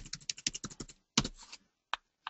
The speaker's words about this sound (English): I might end up cut and pasting a little bit more later on so you don't have to watch me painfully type.